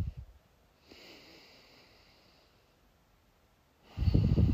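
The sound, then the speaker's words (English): Deep breaths drawn during a guided heart-centred meditation: a faint, drawn-out airy inhale, then a loud, rough breathy exhale near the end, with no talking. “let's all place a hand on our heart. Take a couple of deep breaths.”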